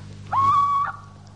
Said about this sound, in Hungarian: Csak a kuvik, a gyászos őr rikoltott szörnyű jó éjszakát.